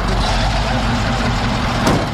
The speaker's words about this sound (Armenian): Հազիվ տեղից շարժվող շրջիկ բեռնատարի աշխատակիցներն առանց արտահագուստի բնակչից վերցրին աղբի տոպրակներն ու տեղավորեցին մեքենայի արդեն լցված թափքում։